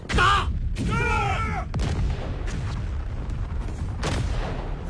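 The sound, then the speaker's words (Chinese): A rifle volley of five rapid rounds fired by a platoon in a wartime battle scene: several sharp gunshot cracks over a continuous roar of battle noise, loud throughout. “一排全体听我命令，五发即射。”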